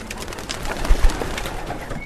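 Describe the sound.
Racing pigeons from a backyard flock of about three hundred birds coo continuously, with soft, low, throaty coos overlapping in a steady murmur at moderate volume.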